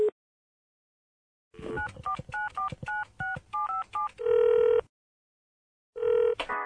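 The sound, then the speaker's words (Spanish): Telephone keypad dialing tones as a call is placed on a phone: a quick, evenly spaced series of short two-note beeps, followed by longer steady tones, clear and alone with no voices. “voy a llamar a José.”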